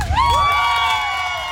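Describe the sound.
Guests at a wedding in Västerås cheer for the newly married couple in a short, loud burst of high whoops and shouts that hold steady for a moment.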